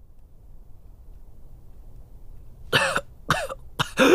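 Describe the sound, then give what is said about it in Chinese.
Harsh, prolonged coughing comes from a pale, ailing king half-reclining on his couch in a palace hall. After a near-silent stretch, a quick run of loud, rough coughs bursts out over the final second and a half. “与此同时的北秦王宫，鹦鹉殿内一阵惊心的咳嗽声响起，久久未有停歇”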